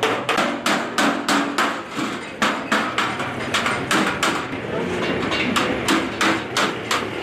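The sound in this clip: Metal is hammered in a blacksmith's shop in a Kandahar bazaar where stoves and other metal goods are made: many loud, ringing blows struck in a rapid, steady rhythm with brief pauses.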